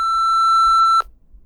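A single electronic voicemail beep sounds before a message: one steady, pure tone lasting about a second at constant pitch, then it cuts off abruptly and leaves faint low background noise.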